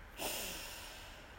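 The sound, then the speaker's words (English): A single deep breath drawn in through the nose, taken during a guided sensory mindfulness exercise: a soft, airy inhale that starts abruptly, peaks quickly, then tapers gently over about a second, with no talking. “Take a deep breath in and notice what you smell.”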